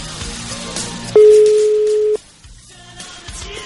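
Ringing tone on a telephone line as a call connects: one steady, clear mid-pitched tone lasting about a second, rising above a low, muffled background noise that quiets after the tone ends.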